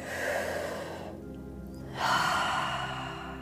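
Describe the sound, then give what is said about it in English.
A deep breath during a guided meditation: two long, soft, airy breath sounds separated by a short quiet gap, set over a low steady hum. “So I invite you now here with me, taking a nice deep breath.”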